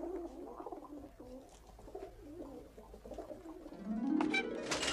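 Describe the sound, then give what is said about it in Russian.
White pigeons coo softly in repeated murmuring calls as they fly out of a dovecote, with a louder rising burst of sound near the end. “Форточка голубятни открывается, и на свободу вылетают белые голуби. Они устремляются ввысь и кружат в небе.”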